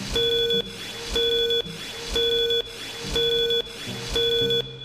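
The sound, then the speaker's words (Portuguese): A five-second tone signal made of five short, bright beeps, evenly spaced about one per second and steady in pitch, sounding over a low background bed. “Atenção, senhoras e senhores, para o toque de 5 segundos.”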